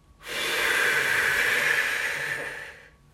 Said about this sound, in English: Hold here again. Exhale it back out. Release it.